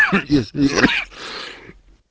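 Someone clears their throat in a few harsh, voiced bursts, followed by a breathy, raspy exhale that fades into silence.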